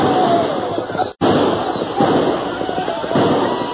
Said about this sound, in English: the fuses seemed to sputter forever. Then as the Indians closed ranks for a last assault, the earth beneath them exploded.